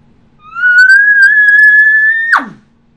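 A human mouth imitates an elk bugle call without a tube: one loud, clear whistle-like note that rises slightly and holds for about two seconds, then breaks sharply downward into a brief breathy puff.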